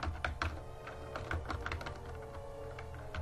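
Typing on a computer keyboard while writing in Microsoft Word: a steady, irregular run of many quick key clicks and taps, with no talking.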